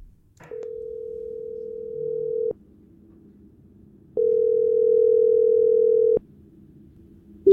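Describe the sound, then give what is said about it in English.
Telephone call ringing out, with two long steady ring tones of about two seconds each separated by a pause, and a third just starting at the end. “I called Carolina to check up on how things were going during the school year.”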